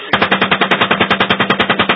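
Machine gun fire during a combat engagement: one sustained, rapid burst of many evenly spaced, loud shots in a fast, steady rhythm that lasts almost the whole clip.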